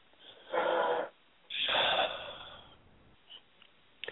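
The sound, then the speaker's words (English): Deep, connected breaths drawn in calm succession: two long, loud breaths separated by a short pause, the second longer and tapering off gradually. Quiet follows, with a few faint breath sounds. “maybe just to take a couple of deep, connected breaths with us”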